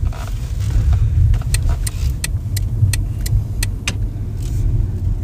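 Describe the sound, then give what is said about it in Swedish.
Steady engine and road rumble from a car driving along a street past a house. A run of evenly spaced sharp ticks sits above the low drone partway through. “Här kör vi förbi nu där Benjamin är uppväxt.”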